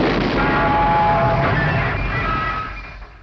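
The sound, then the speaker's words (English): An explosion sound effect, standing for a penguin on top of a TV set blowing up, comes through as a loud, dense rumbling roar. The roar holds steady, then fades out over about three seconds. “Oh, penguin on top of the telly exploded.”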